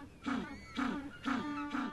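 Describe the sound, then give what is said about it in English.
African penguins, also called jackass penguins, bray in four evenly spaced calls. Each is a faint, harmonic, nasal honk with short pauses between. “Actually, that's the sound of African penguins, affectionately known as jackass penguins.”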